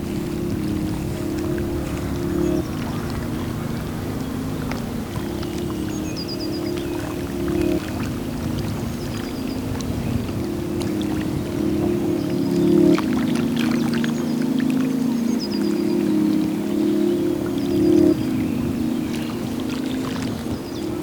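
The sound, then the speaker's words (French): Gentle lapping of lake water: a soft, even wash of small ripples over a steady low hum, holding a constant level throughout. “Bercé par le léger clapotis du lac,”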